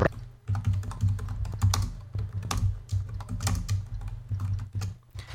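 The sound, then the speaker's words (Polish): Fingers type on a computer keyboard in a quick, uneven stream of many crisp clicks and taps with brief pauses, loud and alone without any voices. “Bardzo dobrze, naciskam F2. Piszemy sobie.”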